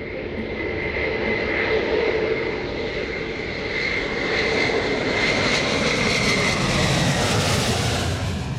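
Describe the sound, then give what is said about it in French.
Concorde supersonic airliner flies over with landing gear down on a final loop between Roissy and Le Bourget, giving a loud, continuous engine roar with a broad rushing hiss that holds steady throughout, with no voices. “Une ultime boucle entre Roissy et le Bourget. L'instant est historique. Les rayons du soleil sur la carlingue, feu allumé et train d'atterrissage sorti. À sa façon, Concorde vous dit adieu avant d'entrer au musée.”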